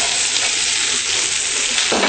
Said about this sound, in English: Put a dabble of olive oil or any other oil that you choose and make sure that it's already quite high heated. Slapping it on top, giving it that wonderful seared feeling.